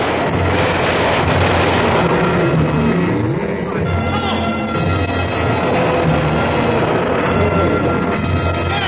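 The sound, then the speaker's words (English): Soldiers fire rifles as they retreat, making a dense, loud, continuous clatter of shots over heavy rumbling, with voices mixed into the din. “Lane and O'Brien retreat, still firing on the Yeti.”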